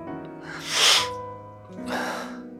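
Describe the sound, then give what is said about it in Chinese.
A person sniffing: two breathy nasal draws, the first louder and the second softer, over a soft sustained musical background. “他吸了吸鼻子”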